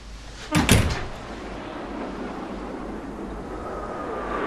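A locked door is opened with a brief, loud burst of two close clunks, followed by a steady low hiss that continues to the end.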